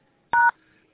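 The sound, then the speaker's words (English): A telephone keypad sounds one short, steady two-note DTMF beep, dialed into an automated phone directory, alone against near silence. “For a dial by name directory, please dial pound.”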